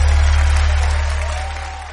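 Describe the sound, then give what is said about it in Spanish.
Church audience applauding during a service, a broad wash of clapping over a strong low hum, the whole sound fading steadily over about two seconds. “Aplaude fuerte a Dios.”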